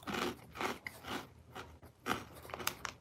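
Someone crunches and chews cinnamon-flavored Bugles corn snacks, giving several crisp bites followed by grinding mastication, faint and uneven, with no talking.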